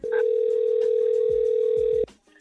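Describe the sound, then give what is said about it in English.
A telephone dial tone sounds while a call to a friend is placed. It holds one steady, even pitch for about two seconds, then cuts off abruptly. “Dial her up.”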